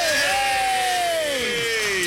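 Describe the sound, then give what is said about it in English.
Crowd noise from a large gathering at the Water Carnival in Detroit Lakes, a steady dense murmur lasting throughout, with one drawn-out voice rising above it in a falling whoop. “It's Water Carnival. Ladies and gentlemen, look at this giant crowd of people already out for kegs and eggs.”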